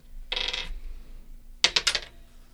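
Dice rattling and clattering on a table during a tabletop roleplaying game: one short rattle, a pause, then a quick run of sharp clicks as the dice tumble and settle, with no talk.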